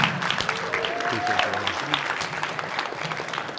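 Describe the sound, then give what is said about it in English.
Applause from a middle school audience welcoming a speaker: a dense, steady clatter of clapping that runs the whole clip at an even, loud level, with crowd voices mixed in. “I want y'all to put your hands together and I want y'all to make some noise for my good friend”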